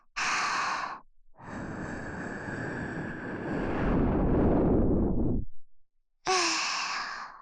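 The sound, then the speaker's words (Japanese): Gentle breathy blowing onto an ear: a short soft puff, then a long, sustained airy blow that grows slightly stronger, and a final short puff after a pause. “耳が赤くなってるから、暑いのかなーって、ふうふうしてあげますね。”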